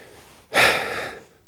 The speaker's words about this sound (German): Ich müsste mir mal eben die Nase putzen.